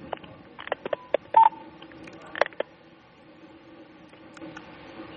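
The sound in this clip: Telephone line dialing tones for a call-in question: a few short clicks and a brief tone blip over a low steady hiss, with no voices.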